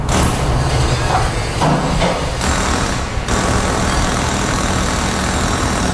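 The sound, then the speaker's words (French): In a car garage in Abitibi-Témiscamingue where winter tires are being fitted, loud, continuous mechanical rattling and hammering runs over an engine-like hum, its texture shifting in a few short bursts throughout. “C'est pas mal comme ça que ça sonne dans bien des garages à l'Abitibi-Témiscamingue en ce moment avec la pose des pneus d'hiver.”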